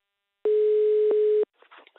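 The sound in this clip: A single steady telephone ringing tone sounds as a call is placed. The buzzy mid-pitched tone holds for about one second and then stops, followed by faint voices.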